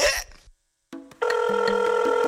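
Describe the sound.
A telephone rings with a bright electronic tone. It begins after a brief silence, opens with a couple of short blips, then swells into a steady, loud, warbling ring that runs to the end.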